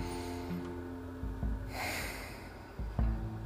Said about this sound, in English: Take a deep breath. Take another deep breath.